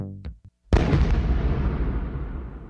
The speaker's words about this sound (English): A stun grenade, also called a flashbang, suddenly overloads our senses.